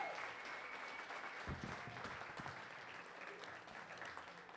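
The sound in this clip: A church audience applauds as a pastor comes up to speak at a morning service, a faint, continuous wash of clapping with some voices mixed in.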